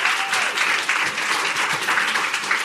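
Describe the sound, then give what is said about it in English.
Audience applause welcoming three women guests onto a stage: a sustained, dense burst of clapping, even in loudness throughout, with no distinct voices. “And please give them a big hand and welcome.”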